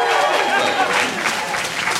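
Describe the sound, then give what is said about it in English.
Dense, steady audience applause greets a round-one competitor being introduced at a competition, a continuous wash of clapping with some crowd voices mixed in. “Clap your hands.”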